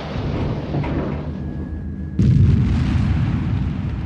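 During an aerial combat scene with guns and rockets firing, a dense rumbling roar carries on until a sudden loud explosion breaks in partway through, leaving the noise heavier and louder afterward.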